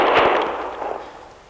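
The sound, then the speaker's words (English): A single sharp gunshot fired at a man, a loud sudden crack at the start followed by a rumbling tail that gradually fades, with no voices. “Somebody was shooting at me”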